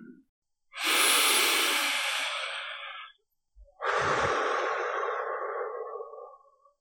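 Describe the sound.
Slow, deep human breathing during a guided meditation: one long, airy inhale, a short pause, then an equally long, hissing exhale, soft and steady with no voice.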